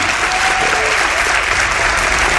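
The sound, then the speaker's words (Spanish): Audience applause for a guest at a talk, with many hands clapping in a loud, dense, continuous wash that holds steady throughout. “para quien pida un aplauso, no se lo hemos dado antes”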